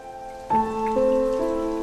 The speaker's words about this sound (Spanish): Hay que poder soportar la lluvia impredecible. You know, I like the rain. Me gusta la lluvia. Huele tan bien.